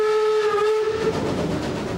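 A steam locomotive on a heritage line through the Wutach gorge sounds a steady whistle for about a second. A broad rumbling running noise then takes over.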